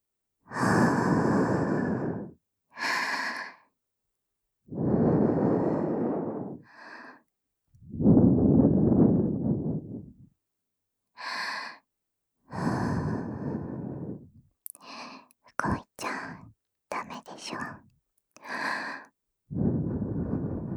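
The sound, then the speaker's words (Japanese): Gentle breaths are blown into both ears, soft airy whooshes in many puffs, some long and drawn-out, others short and quick, with brief silences between them and no talking. “じゃあ、両耳かな。息を、ふうふう、してあげるね。”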